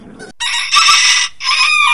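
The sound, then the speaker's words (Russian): Rooster crowing in two long, loud, high-pitched harmonic calls separated by a brief gap, the second call rising back up strongly after the pause. “Встаем, уже давно пора. Кукареку.”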